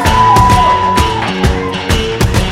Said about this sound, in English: We're coming to you from the Stanton Street Shul in front of a live audience. Let's hear it, guys.